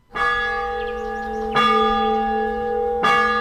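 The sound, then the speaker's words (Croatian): Church bells ring from the bell tower of an Orthodox church at Bijelo Polje near Mostar, with three loud, evenly spaced strikes whose rich metallic tones hum on between blows. “Ovo je zvuk zvona sa zvonika crkve Vaznesenja Gospodnjeg u Bijelom polju, nekih 10 kilometara sjeverno od Mostara”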